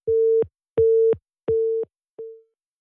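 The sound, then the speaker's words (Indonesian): A busy tone sounds after a phone line disconnects: four evenly spaced mid-pitched beeps, the last one shorter and fading, each loud and clean against silence. “terputus kembali ya line teleponnya”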